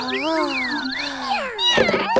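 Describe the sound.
Kittens meow at feeding time: several high, gliding meows overlap one another and rise and fall in pitch, followed by talking near the end.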